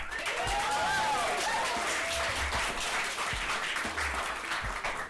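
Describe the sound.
Audience applause welcoming a speaker onto the stage for an evening lecture, dense and steady clapping that stays loud for the whole stretch with only a slight easing at the very end.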